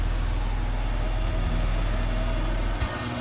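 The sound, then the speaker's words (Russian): A cargo truck drives along a road, its engine a steady low drone that stays level throughout, with a brief bump near the end and no voices. “По дороге едет грузовая машина.”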